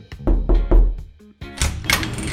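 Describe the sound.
A few sharp knocks on a door are followed by a click and a burst of rustling, scraping noise as the door is opened.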